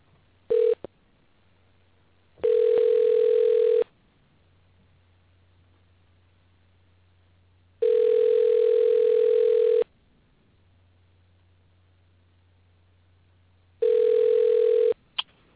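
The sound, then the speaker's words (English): Telephone line tones sound while a call is placed to a guest: a brief blip, then three steady buzzing tones of roughly two seconds each, separated by long pauses filled with a low hum. “Wait. dialing now, guys.”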